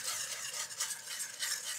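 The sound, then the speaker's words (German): Steady scraping and swishing of batter being stirred as beer is worked in until smooth, for a beer batter to be deep-fried, with many repeated strokes at an even rhythm and no talk. “So, und jetzt haben wir hier das Bier, das geben wir jetzt hier einfach dazu und rühren so lange, bis ein glatter Teig entsteht.”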